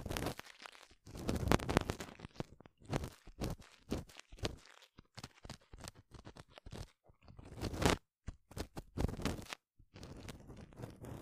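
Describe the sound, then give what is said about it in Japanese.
An ear pick cleaning an ear: close, dry, crunchy scratching and rustling in many irregular bursts, fairly loud, with no talking. “あんた、今まで耳かきってしたことないの？”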